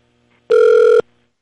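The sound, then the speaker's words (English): A telephone dialing tone on a call-in line: a single loud, steady electronic beep lasting about half a second, alone against near silence. “Well, we have somebody dialing us.”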